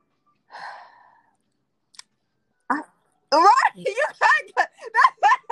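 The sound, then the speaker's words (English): A deep breath drawn by an interview guest before answering a closing question about a message to humanity: one soft, airy inhale alone, followed after a short pause by spoken talk. “Take your time. I love it. Take your time. I heard the breath. I heard it.”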